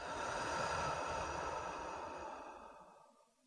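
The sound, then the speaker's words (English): A slow, deep breath, heard as a long, soft, breathy rush that stays steady and then gradually trails off into silence. “Take a slow, deep breath in through the nose and out through the mouth.”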